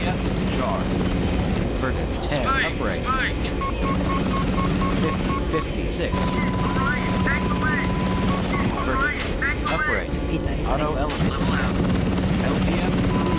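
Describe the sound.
Helicopter rotor noise in a video game, a loud, steady chopping drone that runs throughout, with people talking over it.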